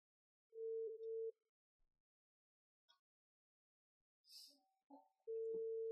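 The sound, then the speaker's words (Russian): A steady telephone tone sounds briefly while a call is being placed, followed by a few faint clicks and a short rustle, and then the same pure, level tone returns and holds to the end. “А мы позвоним. Мы сейчас позвоним эксперту нашему постоянному Федорусю Петру Владимировичу.”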